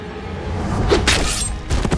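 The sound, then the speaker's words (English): A sword swing in an audio drama gives a few sharp, airy whooshing sweeps in quick succession. “Bonka swung his sword.”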